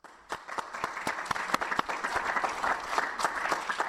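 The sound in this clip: An audience at an evening lecture applauds to welcome a guest speaker, a professor. The clapping of many hands starts quickly and holds at a steady, moderately quiet level throughout.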